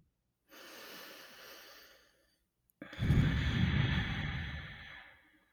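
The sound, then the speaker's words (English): A deep breath drawn in, heard as two breathy rushes: a softer one first, then a louder, longer, fuller breath after a short pause, with no talk. “take in a deep breath with us.”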